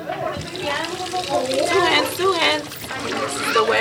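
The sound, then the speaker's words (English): Running water from a tap splashes steadily as children wash their hands before lunch at a Head Start preschool in East Oakland, with children's voices heard over the flow. “Back at the Head Start in East Oakland, the kids are cleaning up for lunch and then a nap.”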